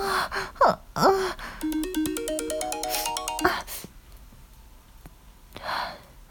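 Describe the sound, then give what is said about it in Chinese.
A phone ringtone for an incoming call plays a short, bright melodic phrase stepping upward in pitch, framed by breathy gasps and sighs before and after it. “有电话来了，我已经调静音了。”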